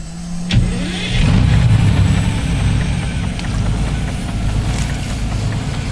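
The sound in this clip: A yacht's engine runs at night: after a brief click it swells into a loud, steady low rumble that holds to the end, with no voices.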